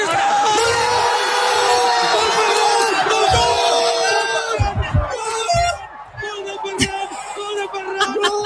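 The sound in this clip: Spanish football fans celebrate wildly after a 1-0 stoppage-time World Cup final win over Argentina. A loud crowd roars and yells, then thins into scattered whoops, shouts and bellowing voices toward the end.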